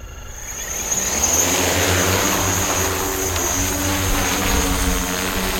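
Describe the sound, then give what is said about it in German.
Two drones take off with a dense, whirring buzz that sounds like a mix of helicopter and hornets, swelling over the first second and then holding loud and steady throughout. “Das klingt so ein bisschen wie eine Mischung zwischen, ich würde mal sagen, Hubschrauber und Hornissen. Wir hören da den Aufstieg von zwei ganz besonderen Drohnen”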